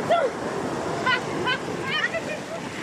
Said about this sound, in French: Donc là, on a les pieds dans l'eau, bordel de cul, et on se fait mouiller. Bah oui, mais t'as vu comme ça monte.